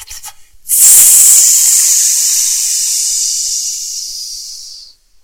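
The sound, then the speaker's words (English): A voice hissing to imitate a branding iron searing a salmon: one long, breathy, steady hiss that holds for about four seconds, slowly fades and then cuts off. “What is the sound of you branding a salmon?”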